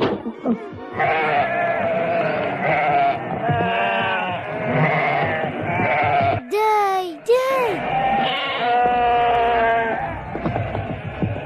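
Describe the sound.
Sheep bleat in an animated Kurdish-dubbed cartoon: a pair of loud, wavering bleats rings out midway, set between stretches of spoken dialogue.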